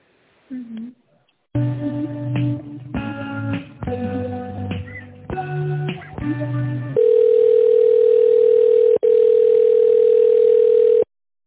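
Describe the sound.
Telephone line tones while a call is being transferred: a run of electronic tones of shifting pitch, then a long, loud, steady tone broken once by a brief gap.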